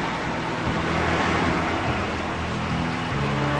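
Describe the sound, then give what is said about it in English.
A car pulling away: a loud, steady wash of engine and road noise with a low hum underneath, continuous from start to finish. “He pulls away with Tom in the car.”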